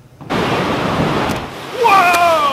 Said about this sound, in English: This Washington ferry ride almost washed away. Oh my goodness! A 30-minute trip across the Puget Sound took much longer when strong winds and waves